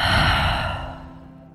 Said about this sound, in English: Slow inhale, slow exhale.